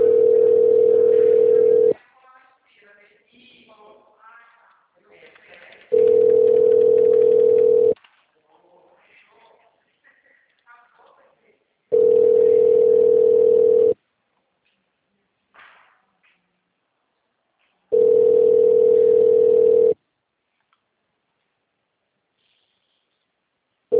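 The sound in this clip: A ringback tone sounds as a telephone call connects: four long, steady mid-pitched tones of about two seconds each, separated by roughly four-second gaps of near silence with faint murmuring, and a fifth tone just beginning at the end.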